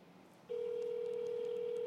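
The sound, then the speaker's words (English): A telephone tone sounds as a call is placed to someone at work: after a brief faint hush, a single steady mid-pitched tone starts and holds unbroken to the end. “Come on, I'm calling her. I feel like on a morning, like, zoo show right now. We're going to call her at work and see what happens.”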